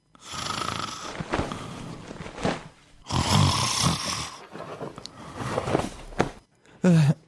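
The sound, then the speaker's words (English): A person snores, lying on their back, with several loud, rasping breaths in an uneven rhythm, separated by short pauses and ending in a brief, higher-pitched snort. “Russo? Sì. Dormi a pancia in su.”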